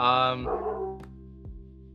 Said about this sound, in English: Sorry, that's my dog.